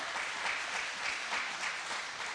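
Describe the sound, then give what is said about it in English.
A church audience claps their hands in praise, giving the Lord a hand clap. The clapping is a dense, steady wash with no breaks, moderately loud throughout. “Go ahead, give the Lord a hand clap.”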